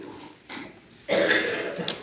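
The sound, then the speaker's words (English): Throat clearing during a Bible sermon: a short rough burst, then a longer, harsher rasping clear, both fairly faint. “I apologize for needing to clear my throat so much.”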